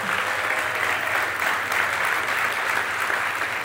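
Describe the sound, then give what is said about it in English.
Church audience applauding to welcome the pastor's wife on Mother's Day, a fairly soft, steady patter of many hands clapping without a break. “Mercy Road, would you give my wife a warm, loud welcome?”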